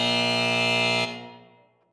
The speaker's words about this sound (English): And then she turns, and then bah, there's the buzzer right there, the 10 minutes.